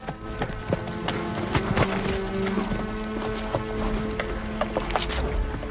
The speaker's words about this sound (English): They slow and pull their horses up.